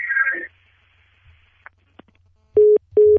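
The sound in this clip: A telephone busy tone follows a dropped Skype call line: two loud, steady low beeps of equal length sound near the end, after a brief voice at the start and a few faint clicks.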